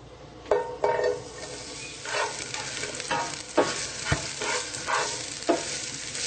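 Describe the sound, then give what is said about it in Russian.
Onions sizzle in about two tablespoons of oil in a pan, a constant crackling fry broken by several sharper stirring scrapes and pops. “Наливаем где-то 2 столовые ложки масла в противень. И добавляем лук.”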